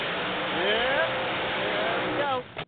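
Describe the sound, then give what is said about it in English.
NHRA drag racing cars roar loudly and continuously, with a couple of rising revving sweeps, before the sound cuts off abruptly near the end. “Haven't heard that sound in about 3 weeks. We're going to go four wide racing in North Carolina today in NHRA drag racing.”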